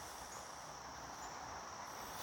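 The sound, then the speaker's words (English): High, steady insect buzzing where mosquitoes are about. It forms a faint, dense drone that runs without pauses, with no voices over it. “Man, these mosquitoes.”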